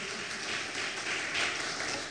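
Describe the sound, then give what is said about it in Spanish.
Steady applause from an audience: a dense, continuous wash of clapping that holds at an even, moderate level for about two seconds, with no voices over it. “Un aplauso por favor al Señor que no se da por vencido.”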